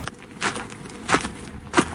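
Footsteps walking at a sports club, heading toward a water storage outflow beneath an artificial turf pitch: three soft, evenly spaced steps, each a short scuffing thud, moderately quiet and alone with no talk.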